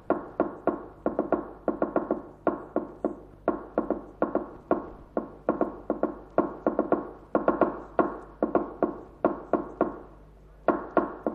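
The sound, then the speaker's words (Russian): Sharp knocks from a fork tapped on a table to imitate a telegraph machine. Many quick raps fall in uneven clusters separated by short pauses, keeping a clipped, Morse-like rhythm throughout, with no talking. “Дядь стучит вилкой по столу, подражая телеграфному станку.”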